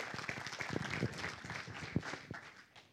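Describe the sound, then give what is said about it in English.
An audience claps to welcome a speaker's wife to the stage, a moderate patter of many hands with a few sharper claps, tapering off toward the end. “So would you put your hands together and welcome my wife, Carolyn Shuttlesworth, as she comes to just greet you for a moment.”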